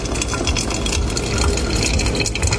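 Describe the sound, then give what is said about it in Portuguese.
Hot water pours through coffee grounds in a filter in a steady, continuous gushing stream, with no voices. “Aí, água ferveu. Pó de café, pé na estrada no coador. Bora passar o café.”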